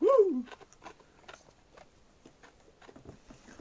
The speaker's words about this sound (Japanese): どうですか、氷を一気に噛み砕いてみた感想は。